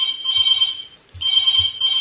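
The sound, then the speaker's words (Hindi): A telephone rings in a radio studio with a bright electronic trill, sounding in bursts broken by brief pauses, clear and alone with no voices. “तो studio की phone की घंटी भी अब बजने लगी है, तो देखते हैं कौन है हमारे आज के पहले कॉलर।”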